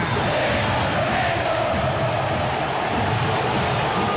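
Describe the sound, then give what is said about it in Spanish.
Cerro Porteño football fans fill the stadium with a dense, continuous roar of many voices, a loud steady wash of crowd sound with no breaks. “Escuchen la nueva olla azulgrana.”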